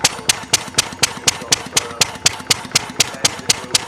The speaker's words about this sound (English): Just have a listen to this engine.